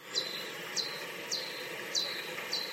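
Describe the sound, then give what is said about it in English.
Pipistrellus bat echolocation calls, slowed down ten times, sound like five short, bird-like chirps. Each chirp sweeps quickly downward in pitch, and they repeat at a steady rhythm over a faint hiss. “And a different type of bat, Pipistrellus, has calls which sound like this.”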